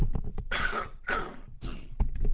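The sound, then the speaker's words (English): Three short, rough coughs from an adult pausing mid-commentary, evenly spaced and fairly loud, with faint shuffling noises before and after. “I'm just going to have a little cough here.”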